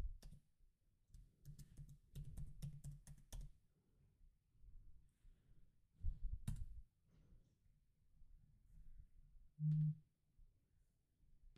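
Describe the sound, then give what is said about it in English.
Typing on a computer keyboard comes in quick bursts of clicks with short pauses between, fairly quiet and with no talk. “Type all this stuff in. Gotta find the website.”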